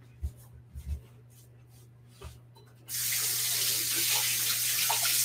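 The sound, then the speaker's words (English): A kitchen tap is turned on for hand washing while cooking sweet potato tacos with vegan cheese sauce: a few soft clunks, then a sudden, steady gush of running water that continues to the end. “Let me wash my hands real quick.”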